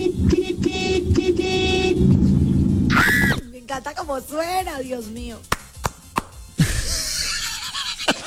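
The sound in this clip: A car horn honks in a few buzzy bursts with a steady tone, then people talk.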